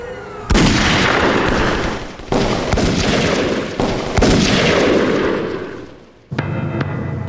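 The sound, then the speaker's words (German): Gunshots in a crime radio drama: several loud, sharp blasts, each followed by a dense, noisy decaying tail, with a brief lull before a final shot. “Es fielen keine weiteren Schüsse mehr. Beinahe ebenso schnell, wie die Schüsse gefallen waren”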